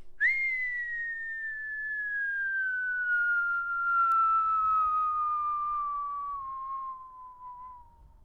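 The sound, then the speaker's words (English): A single long whistled note, clear and pure, gliding slowly and evenly downward in pitch for about eight seconds, with no talking over it. “was that you whistling or was that actually a sound effect from your phone?”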